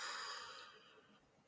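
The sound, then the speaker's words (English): A deep breath out: a soft, breathy hiss that is strongest at the start and gradually fades over about a second and a half. It is faint and heard alone, with no talking. “Let's take some deep breaths. Do some inhale, exhale,”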